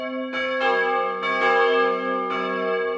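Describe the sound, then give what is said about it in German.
Church bells ringing on New Year's Eve, several strikes blending into a rich, sustained wash of resonant tones that stays loud and steady, with no voices. “Silvesterglocken.”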